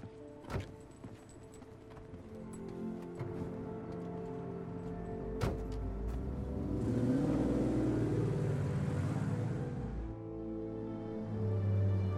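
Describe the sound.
A passenger climbs into the back seat of a car: a couple of sharp knocks, then engine rumble builds into a whooshing drive-off and eases back to a low rumble.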